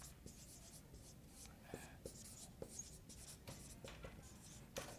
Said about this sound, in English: I'm going to show you something in just a minute that we're going to put down, but I'm going to write it right now.